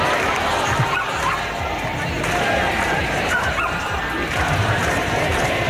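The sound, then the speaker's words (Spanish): Crowd noise from a street protest march in Valencia over housing, a continuous, dense wash of many voices and babble that stays steady and fairly loud for several seconds. “Este es el sonido de la marcha que comienza ahora mismo en Valencia.”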